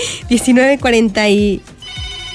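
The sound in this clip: A telephone rings with an incoming call: a repeating electronic ringtone with bright, tonal pulses in quick succession, then a quieter tail.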